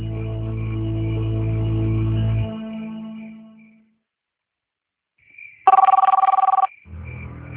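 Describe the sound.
A telephone rings with one short, bright, trilling burst after a stretch of near silence, while a sustained low tone fades out at the start.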